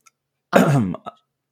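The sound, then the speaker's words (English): One person clears their throat in a brief, gravelly rasp, followed by a short, fainter catch in the throat. Quiet surrounds the sound. “I'm sorry, I was just cleaning my throat.”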